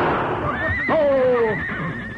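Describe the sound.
A horse pulling a carriage gives a shrill, loud whinny with a wavering, falling pitch over steady background noise.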